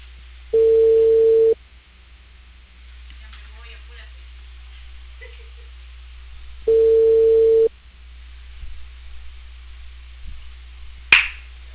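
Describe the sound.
Telephone ringback tone on an unanswered call: two steady mid-pitched tones of about a second each, several seconds apart, with quiet line hiss between them and a few faint clicks near the end.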